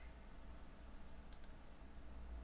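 Computer mouse clicks while making a chat moderator on a stream: two quick, faint clicks in close succession over a low background hum.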